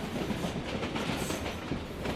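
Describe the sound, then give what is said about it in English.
Rumbling roar of a passenger train in India riding on the rails, heard from inside the carriage, a dense, steady wash of rattling noise with no voices. “I'm back on a train”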